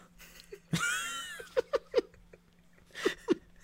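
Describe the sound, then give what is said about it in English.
A person imitates a cat's meow with a drawn-out, wavering, high-pitched vocal sound, followed by a few short, sharp mouth pops. “He goes, beep beep, meow. Yeah, meow.”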